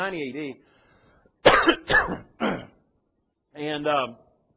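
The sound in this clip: Throat clearing from a man in the middle of speaking: three rough, breathy bursts close together, with his talk before and after.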